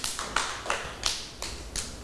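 Rhythmic, evenly spaced claps for a young child in a preschool class, several sharp separate hits about a third of a second apart, with no talk over them.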